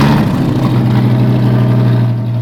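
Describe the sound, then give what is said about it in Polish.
The 8-litre V10 engine of a 1994 Dodge Viper runs loud and close, a deep, steady throaty rumble that stays strong for the whole moment with no voices. “Jest to Dodge Viper z 94 roku. 8-litrowa V10.”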